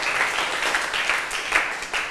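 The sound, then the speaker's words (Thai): Students clap for themselves in a classroom, a dense, even patter of many hands held at steady loudness for about two seconds. “ปรบมือให้ตัวเองหน่อย”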